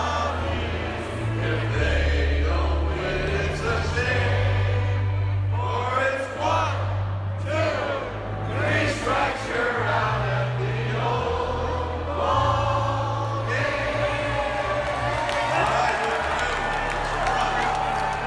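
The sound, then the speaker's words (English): A huge stadium crowd sings together in unison during the seventh-inning stretch of a baseball game, a loud, steady swell of many voices with a sustained melodic line across the whole stretch. “it's kind of fun to hear everyone in a giant stadium singing the same song”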